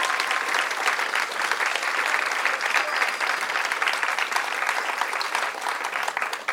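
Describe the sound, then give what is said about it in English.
Audience applause at an evening community event: a steady wash of many hands clapping. It stays fairly even in loudness for over six seconds, with no voices on top. “Let's hear a round of applause for them.”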